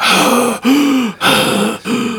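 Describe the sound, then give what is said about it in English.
Heavy breathing inside an astronaut's spacesuit, a film sound effect: four loud, hissing breaths in steady rhythm, each carrying a low, hollow hum, with no talk. “According to his daughter, Katerina, Stanley Kubrick provides the breathing noises you hear in the spacesuits.”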